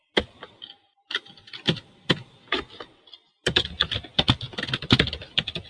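Typing on a computer keyboard: irregular clicking keystrokes with short gaps, followed by a pause and then a denser, faster run of key presses.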